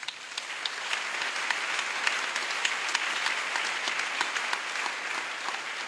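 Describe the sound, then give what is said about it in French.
An audience applauds at a church service in dense, continuous clapping that holds a steady level throughout, with no talk over it. “Non, on acclame Jésus.”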